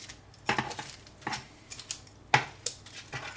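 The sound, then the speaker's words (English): Food being turned over in a pan for even cooking and crisping, with several light metallic clinks and scrapes of a utensil at an irregular pace. “So I'll just turn them over for even cooking. Get them crispy on all sides.”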